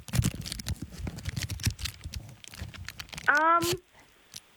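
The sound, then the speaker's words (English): The packaging of a tuna tin is being unwrapped, with many small crackling and crinkling clicks at an uneven pace, followed near the end by a brief voiced sound. “This is the packaging. Tuna tin. A tuna tin.”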